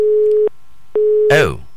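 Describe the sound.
A telephone busy signal after a caller's line dropped: two steady mid-pitched tones separated by a short silence, the second cut off as a brief voice begins.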